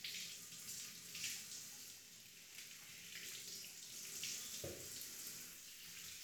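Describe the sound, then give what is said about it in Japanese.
Warm tap water runs during a hair wash at a salon, a faint, steady, continuous hiss of flowing water with no talking. “温かめのお湯にしておきますね。もう少し温かめで。”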